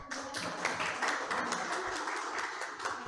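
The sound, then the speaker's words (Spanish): Audience applause at a Catholic formation conference, a steady, dense wash of many hands clapping that holds at an even, fairly soft level throughout without pauses. “del Padre Augusto Meloni, a quien damos un fuerte aplauso.”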